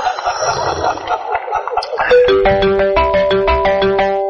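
A melodic electronic telephone ringtone begins after a couple of seconds of murky sound, then plays a bright, repeating pattern of short tonal notes in a steady rhythm at fairly high volume.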